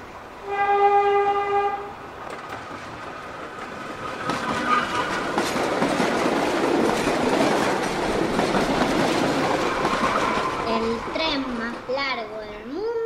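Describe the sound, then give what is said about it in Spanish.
A long freight train in Mauritania, 200 wagons hauled by four locomotives, blares a sustained horn, then rumbles and clatters steadily along; a voice begins talking near the end. “Se encuentra en Mauritania, África. Tiene 200 vagones y es arrastrado por 4 locomotoras.”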